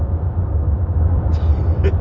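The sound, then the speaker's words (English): A car driving on a motorway gives a steady, continuous low rumble of engine and road noise at an even loudness throughout, with faint brief higher hiss near the end. “I'm now driving on the motorway.”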